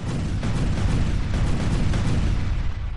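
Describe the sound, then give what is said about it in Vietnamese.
A massive explosion rendered as a thunderous, unbroken roar of dense noise with a heavy low rumble, holding at a steady loud level for the full three seconds without any voices. “sau đó là tiếng nổ kinh thiên động địa như thể thiên địa sắp nứt ra.”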